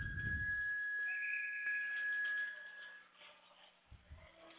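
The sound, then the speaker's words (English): A referee's whistle stops play in a box lacrosse game: one long, shrill, steady blast of about three seconds, then quieter low background noise. “They blew the whistle down as if it was going to be a TV timeout.”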